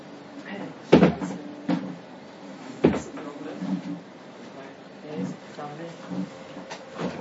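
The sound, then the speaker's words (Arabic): A door being shut quickly: two sharp thuds about two seconds apart, the first the loudest, while voices talk throughout. “صك الباب، الباب. بسرعة.”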